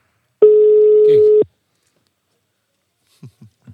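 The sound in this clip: A telephone ringing tone sounds on an outgoing call: one steady, mid-pitched tone lasting about a second, followed by silence and a few faint short sounds at the end.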